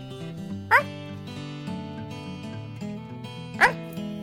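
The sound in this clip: A human voice imitates an unusual frog's call that sounds like a dog, giving two short, sharp yelp-like bursts about three seconds apart over steady background music.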